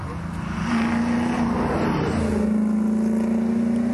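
A car engine, said to sound like an A9X, revs in a sustained, steady drone with a strong low hum that holds almost unchanged throughout.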